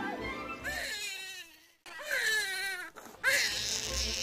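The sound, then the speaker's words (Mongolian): A newborn baby cries just after birth in Bethlehem, in three loud wailing bursts separated by short breaths. The cries are high and strained, with the first cry's pitch sliding downward. “Удалгүй Маригийн хашгирах дуу дуулдаж түүний дараа шин төрсөн хүүхэд час хийн уйллаа.”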